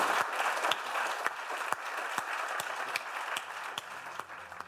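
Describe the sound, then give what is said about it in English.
Audience applause at London Business School, a fairly quiet but steady patter of many people clapping, with individual sharp claps standing out now and then throughout. “I think a huge, huge London Business School round of applause for Mark Rowley.”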